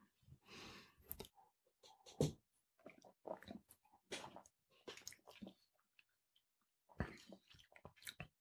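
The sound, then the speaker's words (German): Someone takes a first sip of Hallerndorfer Landbier Hell beer: a few faint, wet slurping and swallowing bursts separated by quiet gaps, with a soft exhaled sigh among them. “So, erster Schluck. Ja, probieren wir es.”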